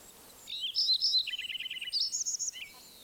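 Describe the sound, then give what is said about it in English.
A Lincoln's sparrow sings a bright, high-pitched bubbling song that begins after a short pause, runs through a quick series of rapid repeated notes in the middle, and ends in a few higher warbles, heard alone against quiet background. “Another Lincoln Sparrow singing behind me.”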